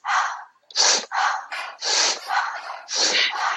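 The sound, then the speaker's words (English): Activation breathing, in through the nose and out through the mouth, as a quick run of many loud, breathy inhales and exhales in a steady, driving rhythm with no talk. “So I'm going to have you inhale through your nose, exhale through your mouth, and the exhale is just spontaneous. So it's like,”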